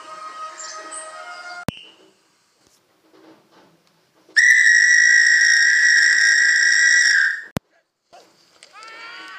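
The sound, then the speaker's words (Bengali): A referee's whistle blown hard at the start of a match gives one loud, steady, shrill blast of about three seconds at an even high pitch. Brief clicks and faint scattered sounds come before and after it. “সজোরে বাঁশি বাজালো।”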